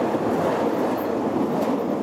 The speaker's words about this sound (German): Rasend schnell fährt ein Zug von Rätischer Bahn direkt vor der Nase der Bauarbeiter vorbei.